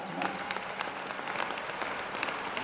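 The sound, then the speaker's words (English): Audience applause at a Howard University commencement ceremony during a speech, a fairly quiet but continuous patter of clapping with sharper individual claps standing out. “I mean, I knew you'd applaud, but I wasn't saying it for the applause.”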